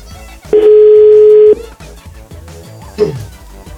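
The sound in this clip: A telephone dial tone, heard while a number is being dialed, holds steadily for about a second, and a brief beep follows a moment later.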